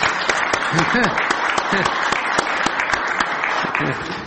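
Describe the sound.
Applause from an audience at a speech on a government's first year, a dense run of rapid claps with sharp peaks that stays loud and steady throughout, with a few voices murmuring underneath.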